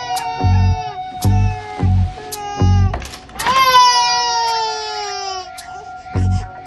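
A baby cries in a hotel suite: a run of short, loud, high-pitched cries, then one long drawn-out wail and a final brief cry.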